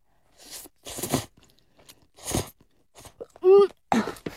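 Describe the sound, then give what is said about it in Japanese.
Someone eats Ippei-chan instant yaki udon with thick noodles and inari fried tofu. A few short, crisp biting and chewing bursts are separated by quiet gaps, with a brief voiced hum near the end. “ちょっと麺太いんですね、うどんだから。 焼きうどんなんでね。 なんか、そして、これは、いなり？ お稲荷さんのお揚げのね、部分ですね。 入ってる。いただきます。”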